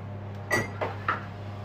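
A butter dish goes into a microwave oven with three light, brief clunks and knocks of the dish against the oven, fairly faint over a steady low hum.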